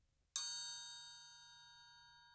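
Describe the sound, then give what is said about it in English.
A triangle struck once with the metal part of a vibraslap gives a single bright, high metallic ding that rings on with a long, slowly fading shimmer. It is faint and heard alone. “Though not recommended, you can play the triangle with the metal part of a vibraslap. Here is what that sounds like.”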